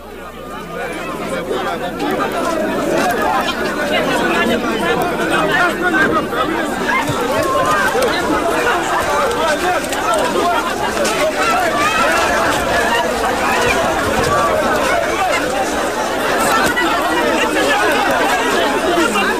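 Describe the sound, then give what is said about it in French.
Dense crowd babble of thousands of Haitians waiting in the morning to cross into the Dominican Republic at the Wanament border post, a loud, unbroken hubbub of overlapping voices that holds steady throughout. “Des 8h du matin, a Darabon, plus de 20 000 Haitiens se presse pour passer la frontière. Ils attendent depuis plusieurs heures à Wanamant, côté Haitien.”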